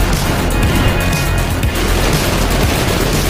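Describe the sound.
Gunfire in a video game shootout against police: a loud, continuous barrage of overlapping shots that blur into a dense, steady roar from start to finish.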